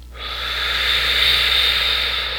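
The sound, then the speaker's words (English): A deep breath drawn through the mouth, heard as one long, steady airy hiss that swells in quickly and holds for about two seconds, with no talk over it. “begin by taking a real deep breath, pulling deep on the inhale, in through your mouth, and then out through your mouth”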